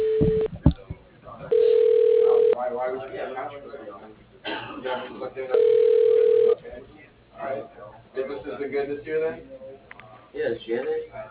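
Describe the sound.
Ringback tone while a phone call is transferred: two steady mid-pitched ring tones, each about a second long and separated by a pause, with people talking between and after them over a narrow phone line.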